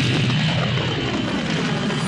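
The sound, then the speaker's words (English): Starship engines firing up, a dense, steady roar with deep rumble and broad hiss that holds at an even, loud level throughout without pause. “Instantly, the loyal Wookiee Chewbacca fired the Falcon's engines and raced to save his friend.”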